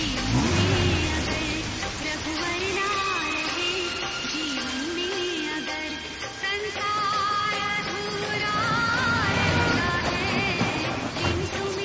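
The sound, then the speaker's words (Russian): A car engine hums as the vehicle speeds along a road to Vrindavan in India. The steady, fairly loud drone wavers up and down in pitch throughout. “И вот их автомобиль уже мчится по дороге во Вриндаван.”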